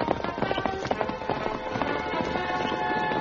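Hoofbeats of horses ridden at pace in a radio drama, a dense run of many quick clopping strikes that carry on steadily without a break, mixed into a busy, layered backdrop.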